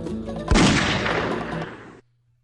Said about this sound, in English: Well, I shot him because, you know, apparently we can't talk to him.